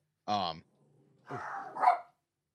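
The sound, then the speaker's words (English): A dog barks twice: a short sharp bark, then a longer, rougher bark. “Okay, quick pause, one moment. Yeah. All right, brief dog break.”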